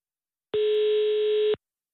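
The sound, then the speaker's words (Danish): Telephone ringing tone heard while a call is being placed: one steady, mid-pitched electronic tone holding evenly for about a second and then cutting off, with nothing else around it. “vi ringede også til romaneren Emil Struer.”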